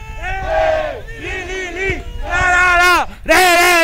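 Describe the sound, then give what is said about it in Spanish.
Deportes Linares football fans chant in the stadium, a crowd of about one to two hundred singing loud, tuneful phrases in rhythmic bursts, with a short pause before the chant swells again. “Escuchemos a la fanaticada del cuadro birrojo.”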